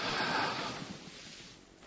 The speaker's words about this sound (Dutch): Nou, ik ga het gewoon bij mezelf controleren of ik adem heb. Ik adem diep in nu.